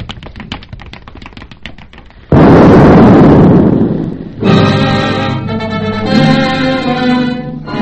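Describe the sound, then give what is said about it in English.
A bomb explodes outside the heavily guarded Kaiserhof Hotel, headquarters of the French Engineering Commission, in a dramatized scene. Rapid, regular ticks lead into a sudden, loud, roaring blast that decays over about two seconds, and then music begins. “No lives were lost. Little damage was done, and the bomb setters were never caught.”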